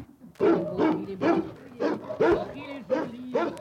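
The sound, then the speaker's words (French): A Belgian Malinois shepherd dog barks in a rhythmic series of about seven short, loud, voiced bursts, with people's voices mixed among them. “C'est un chien berger, il est magnifique. Un ça. Berger malinois, oui. Un berger malinois, il est splendide.”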